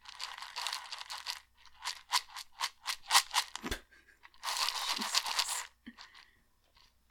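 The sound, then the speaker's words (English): Crunching of Cheerios cereal in close ASMR style: many sharp, dry crackling crunches in a quick irregular run, then a denser, longer stretch of crunching before a few quieter crackles. “I can do some Cheerio ASMR if that will help.”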